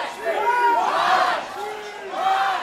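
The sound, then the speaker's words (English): Seahawks fans cheering at a football game against the Patriots, loud crowd shouting and whooping that swells, dips, and rises again. “Seahawks fans cheered loudly until the Patriots mounted a fourth-quarter comeback.”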